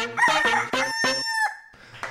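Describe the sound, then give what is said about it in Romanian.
A rooster crows alone in one loud, strained call, with choppy pulsing at the start, a held high note, and then a hoarse, falling tail. “Cocoșelul care cânta.”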